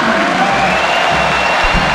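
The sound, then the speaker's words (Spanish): A stadium crowd applauds a football player as he leaves the pitch. The sound is a loud, unbroken wash of clapping and crowd roar with no distinct individual claps standing out. “Otra salida de aplauso, ¿no? Sí, se ganó los aplausos.”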